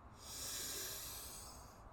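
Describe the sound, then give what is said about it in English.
A deep inhale through the nose during a breathwork exercise, a long, steady, soft hiss that swells and holds before fading, faint and heard alone. “Exhale. Another deep inhale.”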